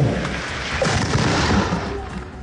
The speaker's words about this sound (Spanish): ¡Batería, fuego!